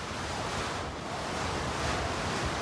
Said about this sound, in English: Now back home, a chick settles down on its mother's feet. A furious icy wind blows over the breeding grounds.